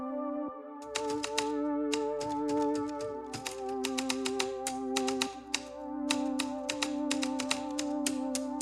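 Typing on a Malling-Hansen writing ball typewriter: many rapid, sharp mechanical keystrikes in an uneven rhythm, clattering steadily over a continuous tonal background.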